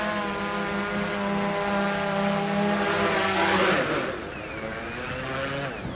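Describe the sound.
Insecticide-spraying drone returning by itself after treating a hornet nest and settling back at its take-off point: a loud, steady motor buzz whose pitch shifts partway through, then softens as it lands.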